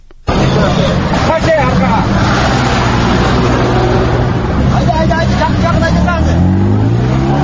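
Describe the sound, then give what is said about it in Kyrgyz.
Cars and other vehicles of various kinds driving along the reopened Osh–Bishkek road after a protest blockade: a loud, continuous rush of engines and passing traffic with a murmur of voices. “Түшкү саат 1:30 ичинде Ош Бишкек жолу ачылып, тосулган жолдун эки тарабында токтоп турган түрдүү үлгүдөгү автоунаалар убай чубай өтө баштады.”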